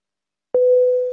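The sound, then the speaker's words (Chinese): Phone busy tone after the other party hangs up: one steady mid-pitched electronic beep starts after a short silence and holds, clear and loud, to the end. “对方已挂断”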